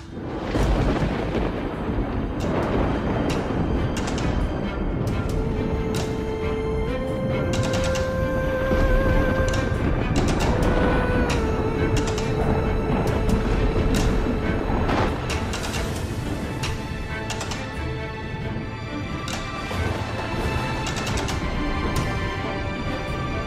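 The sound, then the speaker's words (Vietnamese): Thunder strikes crashing down on a house: a dense, continuous roar of loud rumbles and sharp cracks lasting throughout, with sustained tones running underneath. “Từ trên tầng không, hàng loạt những tia sấm sét giáng xuống đánh thẳng vào căn nhà của bác sĩ Hải”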